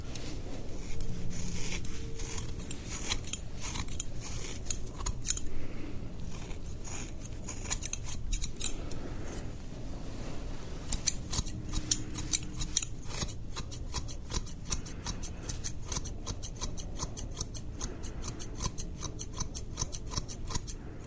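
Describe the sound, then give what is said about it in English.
Scissors cutting hair at a barber: rapid metallic snips that are sparse at first, then become dense and fast, with clear crisp clicks through the second half. “I'll be cutting your hair today.”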